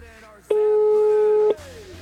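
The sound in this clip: A telephone busy signal sounds after dialing a radio station: a single loud, steady mid-pitched tone lasting about a second.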